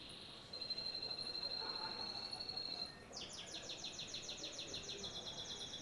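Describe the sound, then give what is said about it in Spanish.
A canary sings faintly over a steady hiss. A sustained high whistle gives way to a rapid, evenly repeating trill of bright chirps. “Ese sonido, el canario cantando, es el único elemento en todo el disco, en todas las canciones del disco, que no es ni una guitarra ni una voz.”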